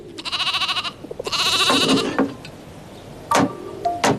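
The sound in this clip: A lamb bleats in two long wavering calls, loud and nasal, followed by a couple of shorter, higher bleats, with a soft background of rustling farmyard noise throughout.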